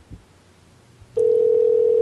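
A ringing tone on a telephone line during a call, the phone on the other end going unanswered. After a short, near-silent pause with a faint click, a steady single-pitched tone starts abruptly and holds loud and unbroken to the end.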